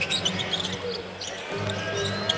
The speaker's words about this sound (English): That's a lot of dribbling there for Memphis.